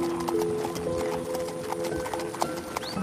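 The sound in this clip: Horses' hooves clip-clop at an unhurried walk near the end of a family horseback ride, a quiet, steady run of many hoofbeats.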